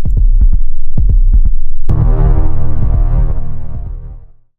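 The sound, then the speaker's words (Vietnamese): Low heartbeat thumps beat in a steady repeating rhythm. About halfway through, a loud sustained droning tone with rich overtones joins them, then fades out at the end. “Hải nín thở, nghe tiếng tim mình đập ngày càng lúc càng nhanh.”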